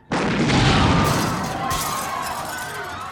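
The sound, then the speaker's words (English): An explosion detonated in a restaurant goes off as a sudden loud blast, then a long roaring rumble that slowly fades. “You may detonate when ready”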